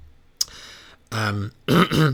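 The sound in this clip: A person clears the throat as if something is stuck in it: one short, sharp hack, then two longer, rasping, voiced throat-clearing bursts with a brief pause between them.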